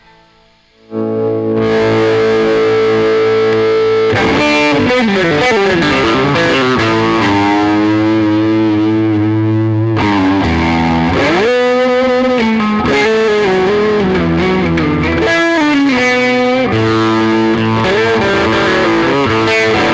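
Electric guitar played through two distortion pedals at once into an amp in a studio: loud, heavily saturated tone with sustained, wavering notes and chords that ring on continuously after a brief quiet start.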